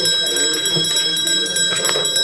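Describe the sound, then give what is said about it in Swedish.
An electric bell rings to call a municipal council to a vote, a bright, steady, multi-toned ring sustained without a break through the whole clip. “Voteringen begärd och ska verkställas. Då ringer vi in.”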